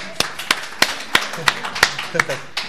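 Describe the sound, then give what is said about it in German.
Rhythmic hand claps in a church community setting, about eight crisp, evenly spaced claps at a brisk steady beat, with voices talking underneath. “Applaus für die Marianne, das war gut.”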